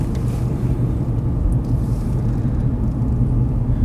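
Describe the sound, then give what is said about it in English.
A car drives on the road at about 35 miles per hour, giving a steady, loud low rumble of engine and tyre noise with no talk. “So, exciting driving sounds.”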